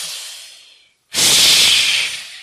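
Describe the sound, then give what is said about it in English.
Loud breathing through the mouth during a breathing exercise: one airy breath that tapers off, a short silence, then a sudden, forceful, hissing breath held strongly before easing, with no voices. “Breathe in and breathe out as loud as you can. So breathe out through your mouth and feel it coming from here.”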